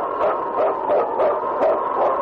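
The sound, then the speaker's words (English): A husky sled lead dog barking in a quick, steady series of sharp barks and yips. The barks are loud and evenly spaced, heard alone with no voices. “It's King, swiftest and strongest lead dog of the North Country, blazing the trail for Sergeant Preston of the Northwest Mounted Police”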